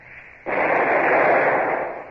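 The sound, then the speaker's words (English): A single warning shot from a sailing warship's number two gun, fired across another ship's bows: a sudden loud blast that carries into a long, rushing roar. “Well, fire a shot across her bows. Number two gun. A single shot across her bows. Fire!”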